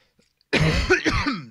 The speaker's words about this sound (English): My apologies for coughing there. That was quite rude.